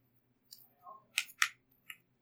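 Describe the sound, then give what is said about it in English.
Four playing cards being shuffled by hand: a few quick, crisp snaps and slides in a short, uneven sequence, quiet, with near-silence between them. “But you're going to shuffle those four cards and then hand them out randomly.”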